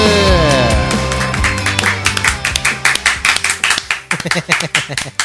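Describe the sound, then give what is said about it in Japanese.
Audience clapping that follows a loud passage of voices and tones, settling into many crisp, evenly spaced claps in a steady rhythm. “もう40を超えたみんなが拍手をしてくれるっていうのは素晴らしいことでございますね”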